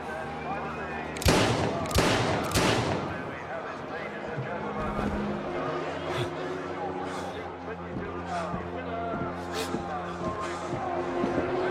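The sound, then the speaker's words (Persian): Gunshots as a radio drama sound effect: three loud, sharp cracks in quick succession near the start, then a few fainter reports scattered over a steady tonal background. “بعد صدای شلیک شنیدم”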